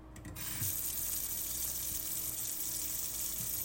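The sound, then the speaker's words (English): Water running from a sink tap, a soft, continuous hiss that starts a moment in and holds steady to the end. “We're only gonna go over to the sink, get this cleaned up a little.”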